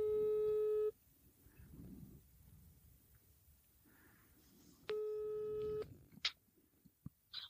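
Telephone ringing tone plays while calling someone: two long, steady electronic rings about four seconds apart, each under a second. A low rumble fills the gap between them, and a few sharp clicks follow the second ring.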